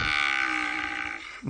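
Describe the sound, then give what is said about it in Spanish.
A voice imitating a cow's moo: one long, sustained, low droning tone held steadily for over a second, heard on its own. “Y la vaca muge todavía hasta ahora.”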